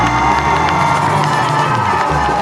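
Cheering and applause from an audience at a live music show with a sung duet, a loud, dense roar with high shouts and whoops that holds steady from start to end.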